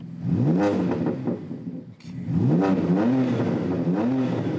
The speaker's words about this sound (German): Beliebt ist auch nachträgliches Software-Tuning, wie an diesem BMW. 5 Modi hat der jetzt drauf. Aha. Nachträglich, wohl bemerkt, das ist nicht mehr im Bereich, was BMW mal vorgesehen hat. Verändern Sie jedes Mal das Klangbild.